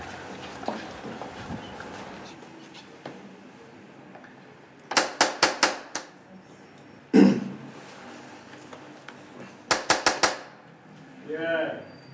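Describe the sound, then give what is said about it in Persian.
Knocking on a door, two quick bursts of several sharp raps separated by a single heavier knock, with quiet talk beneath and a voice speaking at the end. “حالا برو شما درو بزنن. این دفعه درو بزن.”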